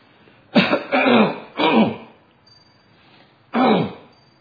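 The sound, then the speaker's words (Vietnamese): An old man clears his throat and hawks up phlegm in four harsh, rasping bursts: three come close together, then a longer pause before the last. The bursts are fairly loud, with no talk over them. “về già rồi nó muốn khạc, nó muốn lên đàm vậy đó.”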